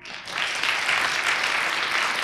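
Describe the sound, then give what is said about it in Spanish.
Nervous, delirious audience applause for a knife-throwing trick, in which dense, continuous clapping swells in quickly and holds steady and loud. “Un truco sensacional. La gente aplaudía nerviosa y presa del delirio.”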